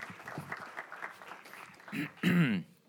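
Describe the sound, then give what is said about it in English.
A church audience breaks into brief applause welcoming a speaker, the clapping swelling near the end while people talk through it. “So come on, just give him a warm Redeeming Love welcome.”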